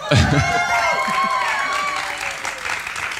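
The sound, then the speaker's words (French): Live audience applauding and cheering in the auditorium of the Maison des Associations, a loud, dense wash of clapping with raised voices over it that holds steady for about three seconds. “Ça fait du bien de l'entendre, ce public.”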